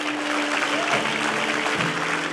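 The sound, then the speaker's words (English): A church audience claps together in a dense, steady wash of many hands that lasts throughout, with a faint low sustained tone beneath. “Come on, if we're going to clap, let's just all clap together.”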